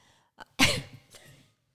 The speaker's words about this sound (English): She's trying to keep in her cough because she has a cold and it's making her cough